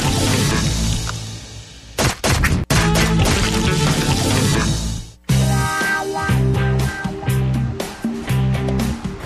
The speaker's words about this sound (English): The walls come tumbling down, and I relieve some stress with a team of smash and crash experts.